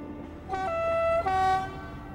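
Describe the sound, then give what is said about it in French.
A train at Northcote station sounds two sustained, tonal horn blasts over a low rolling rumble of the rails, with the second blast slightly lower and held a little longer. “J'entends le train qui approche, une musique que je connais par cœur. Il prend de la vitesse pour sortir de la gare de Northcote.”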